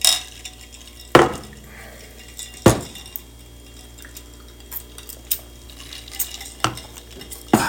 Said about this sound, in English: we figured out how to make the Canadian Hunter manageable. We're mixing it with Coke.